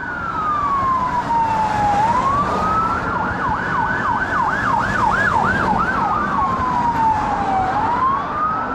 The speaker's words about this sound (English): I'm gonna do the police. Ambulances. Oh, that's not a good sign.